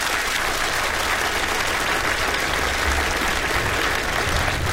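Audience applause: dense, steady clapping from many hands, holding an even loudness throughout without voices standing out.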